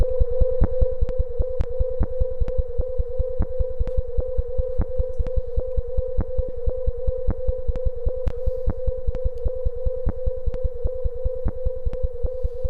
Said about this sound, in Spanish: Este es el sonido de una de las estrellas.